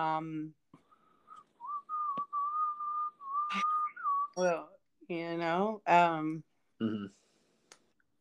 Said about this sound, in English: I feel about that whistling. Yeah, sorry, it is nice.